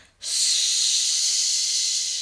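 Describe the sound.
A sustained, loud hiss begins abruptly after a brief near-silence. It holds at an even level with a bright, airy texture until the end.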